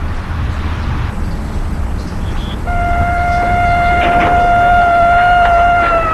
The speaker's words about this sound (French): on entend la sirène de la voiture de police qui arrive dans la rue.